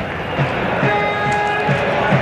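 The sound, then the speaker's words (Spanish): Crowd noise from an audience, a dense and steady hubbub with scattered low thumps that carries on throughout. “Curioso la intro que hace George, que es como 30 segundos de público.”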